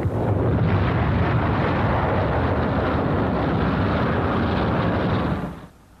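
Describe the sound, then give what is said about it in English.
Roaring rumble of bombs exploding on a bridge during an aerial bombing raid between the French invasion coast and Paris: a loud, dense, sustained wall of noise that drops away quickly at the end. “Here is real pinpoint bombing. One of the last bridges between the invasion coast and Paris gets it.”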